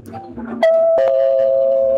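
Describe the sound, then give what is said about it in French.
A doorbell rings early in the morning: after a short stretch of faint sounds, a bright, loud chime tone starts abruptly and holds steady to the end. “Oh, mais qui peut sonner à cette heure?”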